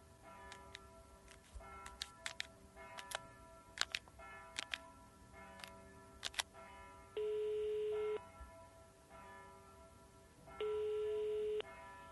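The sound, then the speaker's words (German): A telephone being dialed to call a tax office: a quick run of short beeps and clicks, then two long, steady ringing tones after a pause, all fairly faint with no voices. “Oh Gott, ich muss das Steueramt anrufen.”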